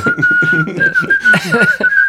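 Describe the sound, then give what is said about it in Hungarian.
A person whistles a bright, loud tone. The pitch wavers slightly and is held almost continuously with a few brief breaks, over busier low sounds. “Viszont te jól fütyülsz.”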